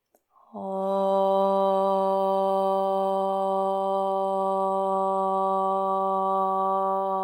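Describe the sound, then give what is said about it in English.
A single voice chants one long om to close a yoga practice. It is a steady, sustained, resonant hum held evenly for several seconds without a break. “Let's seal our practice today with a single om. First, take a full breath in through your nose. Sigh the breath out. Inhale to chant.”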